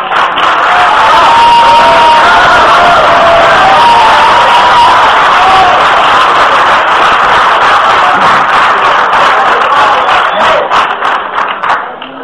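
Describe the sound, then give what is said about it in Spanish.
Loud applause welcomes a speaker at a Catholic formation talk. Dense clapping mixes with cheers and whoops, stays strong for most of the stretch, then thins slightly toward the end. “Recibimos con un fuerte aplauso.”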